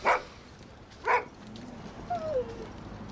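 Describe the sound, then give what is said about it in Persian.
A dog barks twice, two short sharp barks about a second apart, followed by a faint, thin high whine against low background noise. “سگه”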